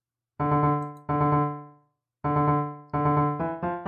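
A rhythmic mission motive from a superhero comedy series theme, played as six bright, pitched, fading notes: two long ones, a pause, then another long note and quicker, shorter ones. It is heard alone, with no voices.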